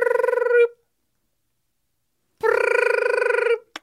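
Telephone ringing on the line after a call is dialled: two long buzzing rings separated by a silent pause, with a brief start of a third ring cut off at the end.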